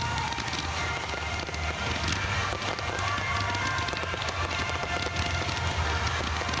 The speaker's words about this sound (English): What is that, you ask? That is the sound of fireworks at the Carolina's Panther Fest, or the Carolina Panthers Fest